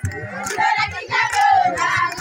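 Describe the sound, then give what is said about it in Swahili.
Villagers in Moro cheer as they welcome Tanzanian peacekeepers. Loud, rhythmic bursts of shouting voices come and go, with short pauses between them. “Wakiwa na shangwe na nderemo, wana kijiji cha Moro wanaopokea walinda amani kutoka Tanzania chini ya MONUSCO katika kijiji hicho.”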